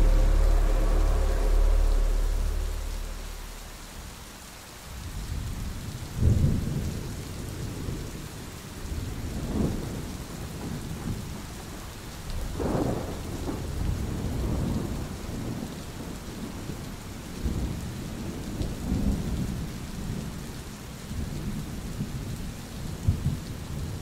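Heavy rain pours down in a thunderstorm, a dense steady hiss under a few deep, rolling rumbles of thunder that swell and fade. No voices are heard.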